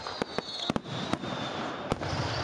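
Fireworks go off in a burst of several sharp, loud bangs scattered over a steady crackling hiss, the reports coming at irregular intervals throughout.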